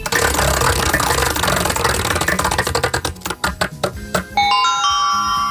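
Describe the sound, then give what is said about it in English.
A prize wheel spins during a game segment, starting with a dense, noisy wash. Rapid ticking clicks then slow and thin out, and a bright ringing chime sounds at the end. “we're going to have you spin the wheel. Whatever it lands on, you have to do.”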